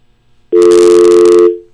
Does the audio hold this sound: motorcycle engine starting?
no

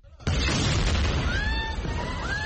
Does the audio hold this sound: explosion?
yes

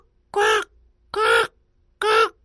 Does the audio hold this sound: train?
no

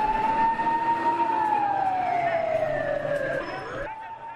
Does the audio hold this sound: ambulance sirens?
yes

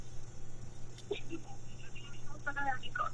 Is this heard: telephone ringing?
yes

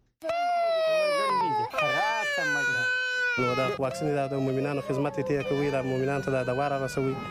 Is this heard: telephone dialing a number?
no

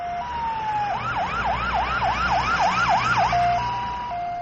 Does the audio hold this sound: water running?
no

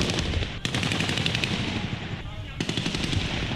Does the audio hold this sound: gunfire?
yes

